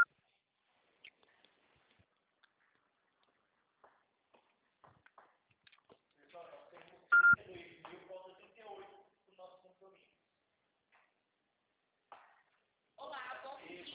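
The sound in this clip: A single short, loud electronic beep from a phone voicemail system signals the start of recording. It sits among voices on the line, with faint scattered clicks before it.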